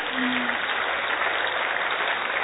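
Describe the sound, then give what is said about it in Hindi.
Audience applause echoing through a hall: dense, steady clapping that holds at an even, fairly loud level from start to finish. “मुस्कुराते हुए जोर से ताली बजाइए।”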